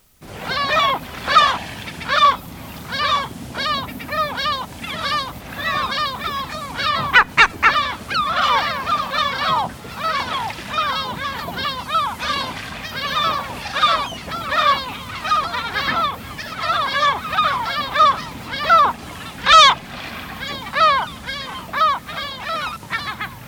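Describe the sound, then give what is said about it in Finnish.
A lesser black-backed gull calls again and again, many harsh, honking, laugh-like cries in uneven bursts, fairly loud and with no voices over them. “Selkälokki.”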